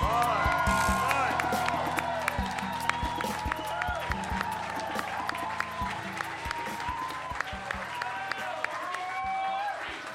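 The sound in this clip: Audience applause and cheering greeting Senator Cory Booker, many sharp individual claps over a steady bed of clapping and crowd noise, with voices calling out and talking through it.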